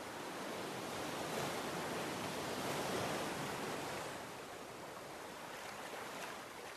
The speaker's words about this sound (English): Paul felt as his weariness washes away with each wave lapping his legs